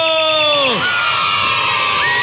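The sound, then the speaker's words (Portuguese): Crowd cheering and applause for players in a bird-guessing game: a steady, loud wash of noise, preceded by tones sweeping down at the start and joined by a rising tone near the end. “Palmas para todo mundo!”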